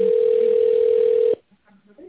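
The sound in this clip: Steady telephone dial tone heard while a call is being placed, a level continuous hum lasting just over a second before it cuts off abruptly, leaving only faint low sounds afterwards.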